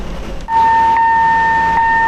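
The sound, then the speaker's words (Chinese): A freight train loaded with 108 standard containers slowly pulls into Luchaogang Central Station. A steady high-pitched tone, like a horn or whistle, holds continuously over a low rumble. “在我身后，满载着108个标准集装箱的列车正在缓缓地驶入芦潮港中心站”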